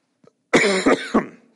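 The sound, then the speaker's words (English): Three loud, harsh coughs in quick succession after a faint brief sound, each a sharp burst trailing into a short rasp, heard alone without talk. “I'm starting to cough.”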